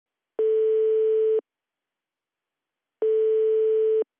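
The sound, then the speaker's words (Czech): Telephone ringing tone heard while placing a call: two steady, even beeps, each lasting about a second, separated by a long silent gap, clean and alone with no talk. “A teď hned mu zavolám.”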